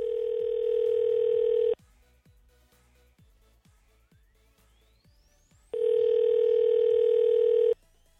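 A telephone dial tone hums steadily while a call is being placed. The flat, loud tone runs for under two seconds and cuts off. A quieter stretch follows with faint, regular clicks, then the same steady tone returns for about two seconds.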